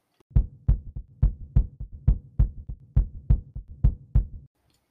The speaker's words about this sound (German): Ja, dann lass mich dein Herz hören.